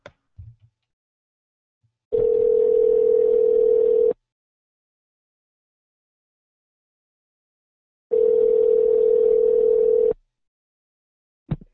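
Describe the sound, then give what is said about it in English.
Telephone ringback as a call is placed: two long, steady, even-pitched ring tones, each lasting about two seconds, separated by a long silence, with a few faint clicks at the very start and end. “Here we go with another Apparent Phone Call.”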